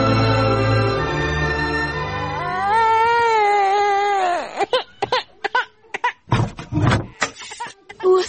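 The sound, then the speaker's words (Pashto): A baby crying in a radio drama: a sustained, wavering wail at the start, followed by choppy talk. “ماشوم خو هسې هم ژاړي.”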